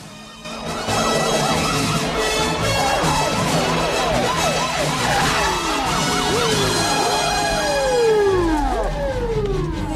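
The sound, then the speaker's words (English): Blaring sirens from a convoy of police patrol cars sweeping through city streets. Several wailing tones overlap and rise and fall continuously, staying loud and steady throughout. “A convoy of patrol cars sweeps through the city streets, with sirens blaring, and comes to a halt in a cluster.”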